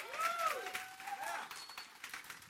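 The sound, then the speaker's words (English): A church audience applauds, with a dense, uneven patter of many clapping hands and voices rising over it. “if y'all didn't clap for that, I was just going to clap.”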